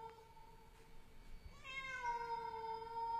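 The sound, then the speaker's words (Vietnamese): A stray cat running past an empty yard lets out a long, drawn-out, mournful wail like a crying child. The call is faint and wavering and comes after a quieter tone, with no voices. “một con mèo hoang chạy vụt qua. Con mèo kêu lên những tiếng nghe thê thiết, mơ mơ hồ hồ cứ như là tiếng trẻ con khóc vậy.”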